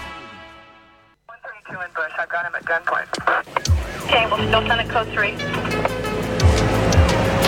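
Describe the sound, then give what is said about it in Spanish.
A police walkie-talkie radio sound opens a show intro, starting with steady electronic tones, then clicks and crackly static bursts that swell into a dense, noisy stretch with garbled voice-like chatter. “Me gusta la intro, el handy de la policía.”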